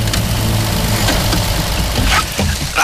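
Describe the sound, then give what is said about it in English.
A haulage truck's engine idles as it pulls up in heavy rain, giving a loud, steady low rumble with a broad hiss over it that does not let up for the whole clip. “The rain begins to fall more heavily, but Salvation is about to pull up, stenciled on several sides. McKenna's all-weather haulage.”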